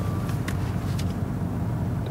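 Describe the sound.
Low, even rumble of a car driving fairly slowly on a road, a continuous droning engine and tyre hum with faint higher whooshes and no break.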